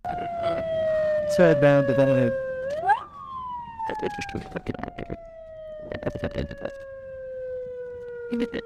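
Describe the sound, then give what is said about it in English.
Ambulance siren driving through Aleppo: a loud wail that holds, sweeps sharply upward, then slowly falls in pitch, with people talking over it. “And this is an ambulance driver taking me from one hospital to another.”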